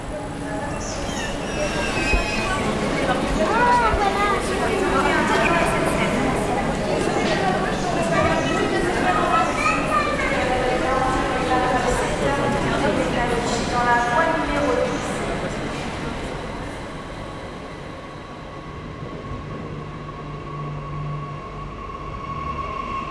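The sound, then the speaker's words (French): Ambient sound of the Rennes railway station with trains: a steady, busy wash of crowd chatter and rail noise, loud and continuous for most of the stretch, then thinning to a quieter hum near the end. “Il y est question des ambiances sonores de la gare de Rennes et de la manière dont elles sont vécues par celles et ceux qui la traversent ou y travaillent.”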